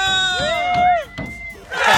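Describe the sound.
Prize winners shouting a cheer together: loud, high voiced yells whose pitch slides downward and overlaps, briefly dipping before a burst of rough, noisy shouting rises at the end.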